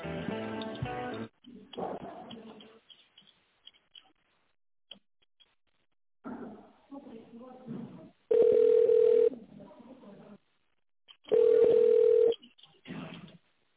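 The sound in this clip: Telephone ringback tone while a caller waits for a lift company to answer: two steady, mid-pitched tone bursts about a second long and three seconds apart, between stretches of a recorded voice message.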